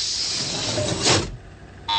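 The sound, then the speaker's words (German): Hiss and whoosh of a spacecraft airlock hatch: a steady airy hiss swells into a brief louder rush, drops to near silence, then a sharp electric buzz starts at the end. “Gleich nach einem Summen öffnet sich die Luke und du kannst hinaus.”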